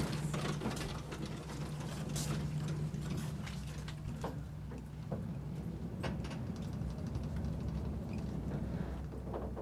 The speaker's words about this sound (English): Those going to the tower, take the elevator located to my right. Going up.